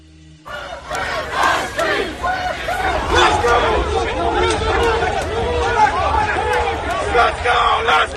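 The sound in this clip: Night-time street crowd of Donald Trump supporters and opponents in Washington, yelling and chanting in a loud, sustained roar of overlapping voices after a brief quieter start.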